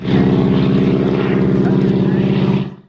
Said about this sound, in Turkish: Görüntüler İngiltere'den gökyüzüne çıktı, uçağın kanadında yürüdü.